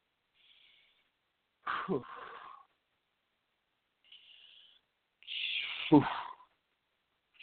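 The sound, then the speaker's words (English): Deep, slow breathing from a man who got worked up: faint, airy breaths alternate with two louder, rougher exhales that carry a low, throaty edge, with quiet gaps between them. “All right, taking deep breaths there. Got a little wound up, got a little excited.”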